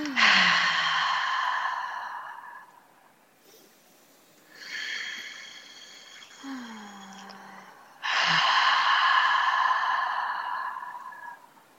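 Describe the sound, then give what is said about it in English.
Deep guided breaths, drawn in through the nose and let out again, with a few long, airy breath sounds that carry a soft voiced, sigh-like tone and pauses between them, heard alone without talk. “let's just take a few moments before we get settled to take some deep breaths. Absolutely. And connect to each other and to this space. So those of us listening, please join us. So nice inhale through the nose. And exhale.”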